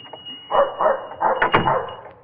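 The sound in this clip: A Cocker Spaniel barking, a few quick, sharp barks in rapid succession, clear and heard alone.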